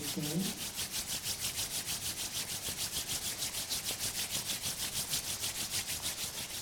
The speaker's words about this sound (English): Fold your palms. Spojte si dlane. Rub your palms.